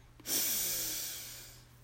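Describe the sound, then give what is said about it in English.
A single slow, deep breath is drawn in through the nose during a guided breathing exercise. The soft, airy hiss swells quickly, then tapers off gradually and is heard alone without talk. “Let's begin by taking 3 deep breaths. We'll breathe in deeply from the bottom of our belly.”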